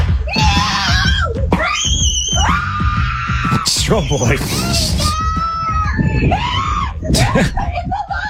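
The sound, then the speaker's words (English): People screaming because an armadillo got into the house: loud, continuous, high-pitched shrieks and wails overlapping one another, with shouting voices mixed in throughout. “So, Dee, in case you're wondering what all the screaming is about,”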